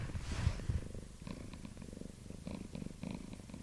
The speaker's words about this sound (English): Aki the Cat, the Hobeck Cat, who joins us on our sofa as we record this episode.